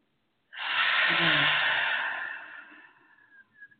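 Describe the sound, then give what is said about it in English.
A deep breath drawn in during a guided relaxation exercise: one loud, breathy inhale that starts abruptly, holds steady for about two seconds, then fades away, with no talk. “And we're going to take just a deep breath in and close your eyes. And let's take a deep breath in. Hold it.”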